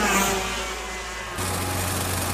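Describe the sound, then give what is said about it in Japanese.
A go-kart engine is pushed at full throttle in a race, giving a continuous buzzing drone whose tone shifts partway through to a lower, steadier hum. “もっとアクセル踏めって。あの青ヘルメット追い抜くんじゃねえのか。 とっくに踏んどるよ目いっぱい。”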